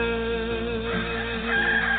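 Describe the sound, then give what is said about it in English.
A rooster crowing at dawn, a loud, sustained, harmonically rich call that holds for the whole stretch and swells slightly toward the end, alone with no voices. “Crack a dawn, rooster crows”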